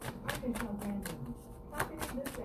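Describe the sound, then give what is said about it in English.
Tarot cards are shuffled in quick, quiet riffles, a stream of light papery clicks and flutters in uneven bursts. “I'm going to pull one more overall card, but it just came out flying out.”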